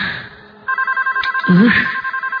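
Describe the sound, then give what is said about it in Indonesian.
A telephone ringing in a room, a loud electronic bell repeating in quick, even pulses, with a voice briefly heard over the ringing partway through. “ini telepon bikin kaget aja deh ah. Ada suara telepon berbunyi di kamar itu.”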